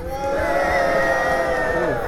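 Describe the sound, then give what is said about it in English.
A New Jersey audience boos on cue, a sustained low droning chorus of voices that rises quickly and holds steady for about two seconds. “It's a little scary that you're better at booing than yaying”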